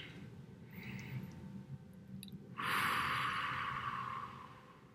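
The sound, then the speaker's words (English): A slow, deep breath taken during a guided relaxation exercise: a faint, airy rush of breath that swells, holds briefly, then fades, with no speech. “Just take a nice deep breath here with me.”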